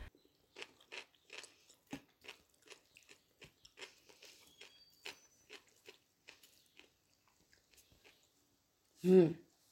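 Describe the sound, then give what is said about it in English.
Crisp, crunchy chewing of kimchi, with many bites in a steady rhythm that grow sparser and fainter, then a brief louder sound at the very end. “It's so good though. I love kimchi so much. That's delicious.”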